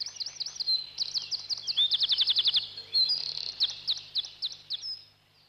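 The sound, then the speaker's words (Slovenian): A wren sings a bright, high-pitched song of rapid repeated notes and quick trills, delivered in several bursts that run continuously for about five seconds with no other sounds. “Vse do večera, ki ga je Saško Stržek spet končal z veličastno pesmijo.”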